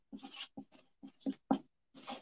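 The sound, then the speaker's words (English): Writing on a board during a nursing exam review lecture: a few short, scratchy strokes with squeaky tonal edges, separated by brief pauses, with no talking. “So 1%, what am I putting here in the 1% column? There are two things that I need to write.”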